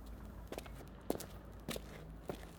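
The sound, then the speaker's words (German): Footsteps walking along a street: four faint, evenly spaced steps with soft, dull impacts over a quiet low background hum. “Wir gehen jetzt weiter auf der linken Straßenseite.”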